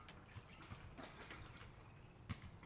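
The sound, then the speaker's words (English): A drink being stirred. Soft, quiet swirling of liquid runs throughout, with a few faint clinks. “You're stirring it. I'm stirring. It's the sound of stirring, folks.”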